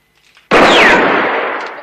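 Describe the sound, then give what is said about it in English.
A single loud gunshot is fired at a gun lying on the ground, with a sharp onset and a long, ringing, noisy decay that fades slowly. “Valens shoots at the gun on the ground, but Rance continues.”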